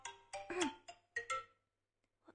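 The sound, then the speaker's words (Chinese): A phone ringtone plays a short melodic run of several bright, ringing tonal notes in quick succession, then cuts off into silence, with a faint click at the end. “我先接个电话”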